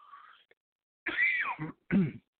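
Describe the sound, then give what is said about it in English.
A couple of harsh, breathy coughs from a man with mild asthma. Short bursts follow one another after a faint, soft sound at the start. “I'm really sorry about my cough. I had a little asthma today.”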